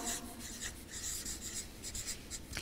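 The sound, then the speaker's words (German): Handwriting scratches as someone writes a new section by hand: many short, dry pen strokes come in quick bursts at a steady, faint level, with no talking. “Ich schreibe mal einen neuen Abschnitt mit Gott, oder?”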